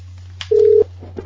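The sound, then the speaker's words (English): A phone call is placed: one steady, mid-pitched electronic telephone beep lasts about a third of a second over a low, constant hum. “Hey, let's call my phone.”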